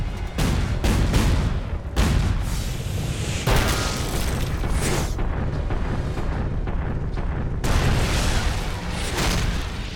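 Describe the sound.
Loud volleys of gunfire and heavy booms aimed at approaching giants by a gate in a dubbed animated battle, many repeated blasts in irregular bursts.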